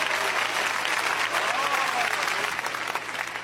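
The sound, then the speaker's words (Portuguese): An audience clapping hands during a church service makes a dense, continuous wash of many hands applauding at a steady, fairly loud level, with faint voices mixed in. “Pode bater as palmas para Jesus, meus irmãos.”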